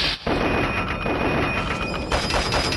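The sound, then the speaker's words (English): Rapid assault rifle fire in a video game set on a map called Land Minefield, a loud, dense stream of shots after a brief gap near the start and continuing to the end. “All right. Got him. With my new trusty assault rifle.”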